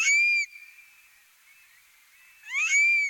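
A bird calls at a salt lake at night: loud, high whistled bursts open and close the call with sweeping, warbling inflections, joined by a faint, thin sustained tone in between.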